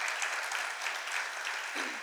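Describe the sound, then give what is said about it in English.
An audience at a church gathering applauds with dense, steady clapping that carries on evenly for the whole stretch, with no voices over it. “Just let's applaud them. Démosles un gran aplauso a ellos.”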